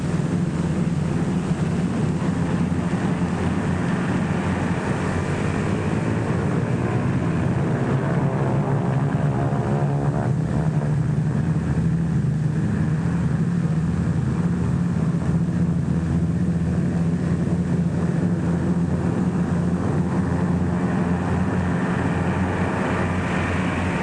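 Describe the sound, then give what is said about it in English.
Engines of more than a score of US Liberator bombers warm up for takeoff on an airfield in North Africa, a loud, steady droning roar that holds without a break for the whole stretch, with no voices. “More than a score of United States liberators warm up for the takeoff from a field somewhere in North Africa.”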